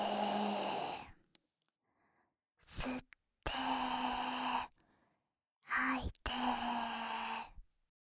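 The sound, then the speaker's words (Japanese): Slow, deep breathing in a guided relaxation exercise, inhaling and exhaling. A few long, breathy breaths, some carrying a soft voiced hum, are separated by stretches of silence. “吐いて、 吸って、吐いて、 吸って、吐いて。”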